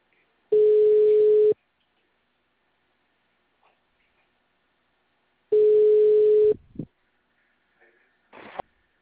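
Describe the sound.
A telephone ringback tone sounds while a call is being placed: two steady, one-second tones, each followed by about four seconds of silence. A few faint clicks and rustles come after the second tone.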